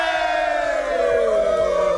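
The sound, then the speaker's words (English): A crowd cheers loudly, shouting hurrah in a sustained, full-throated roar of many voices that holds steady from start to finish. “But by the sounds of things, and I think a hurrah will be needed, it looks like the lights will be disappearing at the end of this week. Hooray!”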